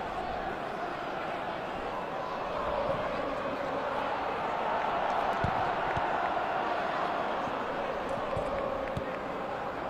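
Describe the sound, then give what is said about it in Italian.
Football stadium crowd of Juventus fans protesting during a match against Sassuolo, a steady, broad roar of many voices that holds constant and swells slightly midway. “Protesta il pubblico della Juve perché ci sta mettendo un po' tanto, consiglia a rinviare il pallone.”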